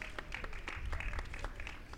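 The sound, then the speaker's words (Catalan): Faint audience applause at a live event: dense, steady clapping from a crowd section that holds evenly through the whole stretch. “A veure, Fondo Sur, aplaudiment.”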